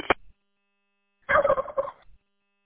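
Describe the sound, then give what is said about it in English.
A radio repeater's roger tone, set to play a turkey gobble: a brief burst of sound, a short silence, then one warbling, rapidly pulsing gobble lasting under a second, heard alone without voices. “I'm assuming you're referring to the Roger tone of the machine is a gobble.”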